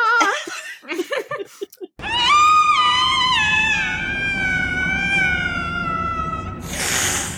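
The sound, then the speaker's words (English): A cat's long, shrill yowl that sounds like a woman screaming, from a film scene, sustained for several seconds with a slowly falling pitch, after a few short choppy sounds and ending in a rough burst. “And then when they finally show the cat, it still sounds like a woman screaming, but I think they might have like purposely adjusted the sound to make it sound a little cat-like”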